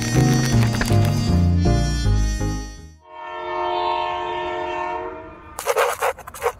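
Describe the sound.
A train rolls along while its horn sounds in long, harmonic blasts: a chord-like stretch, then a single sustained tone. A few short, rough bursts of rail noise close it out.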